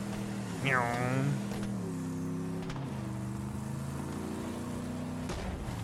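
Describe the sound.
Vehicle engine from the video game Borderlands 3 drones steadily while driving, a low harmonic hum that swells briefly louder near the start, then holds an even, continuous tone.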